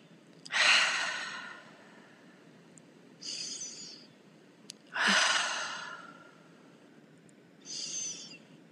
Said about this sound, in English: Take 3 or 4 cleansing breaths.